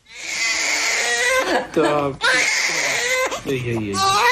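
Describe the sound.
A baby cries loudly in several high, wailing bursts with short breaths between them, the cries strained and piercing, and no other voices are heard.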